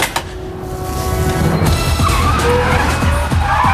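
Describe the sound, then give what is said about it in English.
A Mini car painted with a Union Jack skids with loud tires squealing, a continuous high screech over a rough engine roar that lasts several seconds. “Nigel calls a Union Jack car over. Your spy car's a mini.”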